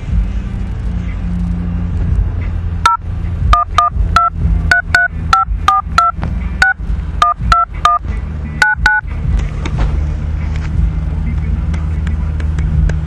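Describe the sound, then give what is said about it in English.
Telephone keypad tones dial a number on a prepaid calling service: many short, evenly spaced dual-tone beeps in a quick run, over a steady low rumble like a running vehicle. “Please enter the telephone number you wish to dial now, or press *0 to recharge, and hear the main menu options.”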